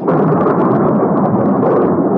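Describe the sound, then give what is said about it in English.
Thunder in a storm rolls as a continuous, heavy, loud rumble that stays dense and steady throughout, with no voices. “The night of the storm. Such a storm.”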